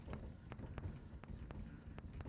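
Writing on a board during a chemistry lecture on acids and acid derivatives, heard as several faint, short scratchy strokes in an irregular rhythm, with no talk over them.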